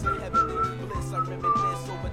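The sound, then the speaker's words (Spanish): A video game character whistling a little tune while walking, a few clear, sustained high notes drifting over a rhythmic low accompaniment that pulses beneath. “el güey va caminando y canta la cancioncita, la va chiflando.”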